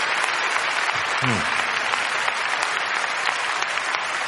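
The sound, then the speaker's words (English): A church audience applauds in a steady, dense, loud wash of clapping that holds evenly for about four seconds with no clear breaks. “Let's give the Lord a big round of applause.”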